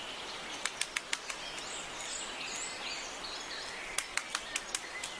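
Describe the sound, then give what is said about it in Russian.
Great spotted woodpecker pecking a dead tree in search of a larva: two quick bursts of five or six sharp, dry taps each, separated by a few seconds of soft background hiss. “Послушайте, большой пестрый дятел долбит дерево, он хочет достать личинку. Это звучит вот так.”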